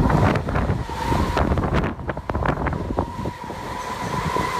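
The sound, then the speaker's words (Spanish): Strong tramontana wind blows through Portbou and buffets the microphone with a continuous loud roar. Rumbling gusts swell and ease throughout, with no talk. “Aquí vive la tramontana. Es el pueblo donde más sopla.”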